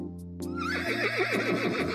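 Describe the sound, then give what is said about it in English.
A horse in a field neighs: one loud, drawn-out whinny that opens on a steady high call, then breaks into a rapid, quavering warble. “This is a horse. My friend the horse lives in a field.”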